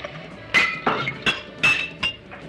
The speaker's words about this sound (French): C'est le bruit des glaçons sur la scène du pavillon.